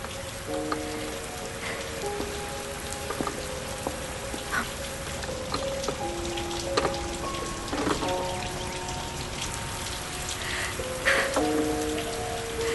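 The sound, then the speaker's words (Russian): Rain falls onto a surface in a steady hiss, with scattered louder drops and soft sustained musical tones sounding over the continuous downpour. “Дождь какой-то горячий.”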